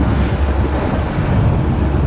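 A boat moves through muddy, rain-swollen water, a loud, steady rush of water and wind buffeting the microphone with no distinct events and no talk.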